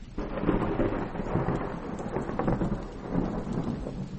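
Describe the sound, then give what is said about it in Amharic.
Steady rain pours down while thunder rumbles low and continuously beneath it, the dense hiss of the downpour swelling and easing slightly, with no voices. “በአካባቢው ዝናብ መጣል ጀምሯል።”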